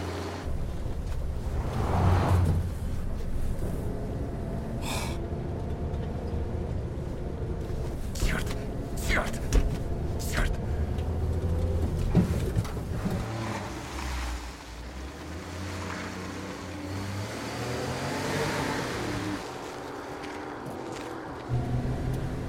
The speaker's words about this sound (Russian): Проезжают машины.